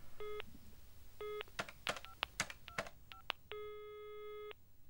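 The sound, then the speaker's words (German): A telephone call being dialled and ringing: two short electronic tone bursts, then a quick run of dialling tones and clicks, then one longer steady tone, all fairly faint over low background noise. “Ja, ich muss unbedingt jetzt Frau Füger anrufen.”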